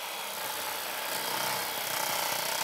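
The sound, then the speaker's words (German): Hedge trimmer cutting back spreading plants in a natural garden, a steady, scratchy, buzzing cutting noise that holds at an even level throughout, with no voices. “Wenn sich eine Pflanze zu sehr ausbreitet, wird schonend mit der Heckenschere gemäht.”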